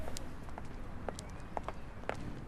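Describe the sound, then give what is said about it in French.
Footsteps on cobblestones in a small paved street of an old neighbourhood: a series of faint, irregular hard taps over steady outdoor street noise. “C'est un quartier avec des petites rues pavées, on marche sur des pavés. C'est ça, on marche sur des pavés.”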